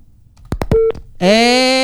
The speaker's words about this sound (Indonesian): Tut. Dicoba lagi Bang Mairona, kenapa itu apa? Teleponnya putus ya.